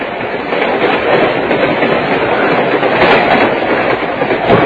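A train rides along its rails in a loud, steady rumble with a continuous clickety-clack texture, unbroken from start to finish.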